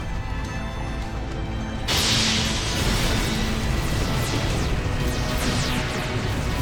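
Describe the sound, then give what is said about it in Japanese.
A warship's main cannon fires in battle: a sudden loud blast bursts in about two seconds in, then a sustained roaring rush of noise carries on to the end. “主砲発射。 主砲発射。”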